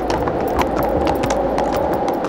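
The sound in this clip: Horse hooves clip-clop as a horse-drawn cart climbs a slope, with many quick, steady hoof strikes over a constant rumbling noise.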